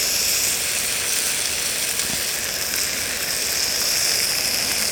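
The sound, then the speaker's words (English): Food sizzles in oil on an isobutane portable camping stove at a campsite, a continuous bright hiss with no pauses or voices. “A little bit more oil in there. Yeah, and PAM.”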